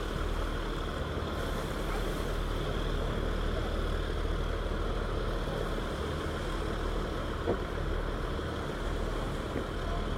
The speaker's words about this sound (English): Maybe can, but over the sound of the engines. Got the sea lapping up to our right